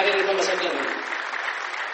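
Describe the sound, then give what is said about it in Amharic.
Applause in a church: dense, steady clapping from many hands that thins slightly toward the end. “ጭብጨባና ምስጋና ለእግዚአብሔር ይደርሳል።”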